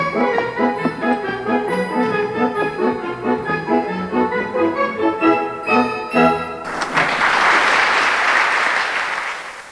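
Audience applause follows a live music performance: the music plays on for several seconds, then stops abruptly and gives way to loud, sustained clapping that carries on to the end.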